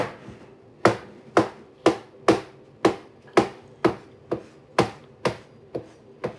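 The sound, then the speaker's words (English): A knife chops ingredients for a sauce on a cutting board with about a dozen sharp, evenly spaced strikes in a steady rhythm, each a crisp knock with no talking. “No, I'm cutting up stuff to put in the sauce.”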